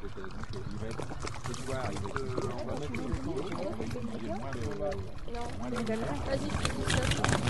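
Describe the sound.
Water is poured into a bottle being readied as a water rocket, a steady trickling, gurgling pour running under people talking throughout.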